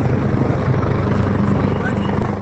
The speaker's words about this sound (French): Pendant que les hélicoptères de l'armée aérienne survolaient le ciel quinois